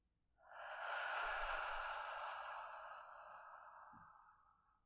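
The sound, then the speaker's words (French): A long, soft breath pushed out through the open mouth during a guided breathing exercise, rising quickly and then tapering away gently over about four seconds. “Ouvrez la bouche et expirez par la bouche.”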